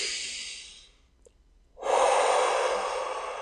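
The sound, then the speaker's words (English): Deep breathing, air drawn in through the nose and let out through the mouth: two loud, airy breaths separated by a short quiet pause, the second fuller and more forceful, with no speech. “just beginning to pick up a nice inhale in through the nose, exhale out through the mouth.”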